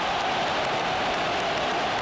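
A football stadium crowd cheers during an international match involving Australia after a shot hits the side netting. The roar is dense and steady, with clapping mixed into the constant wash of noise.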